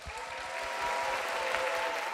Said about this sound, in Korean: 그럼 참가 번호 1번 하모의 무대를 함께 만나보시죠. 박수 부탁드립니다.